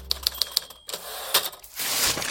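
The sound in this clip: Typewriter keys clack as someone types a lease: a few sharp, evenly spaced strikes, then a pause and heavier mechanical clatter and rattling.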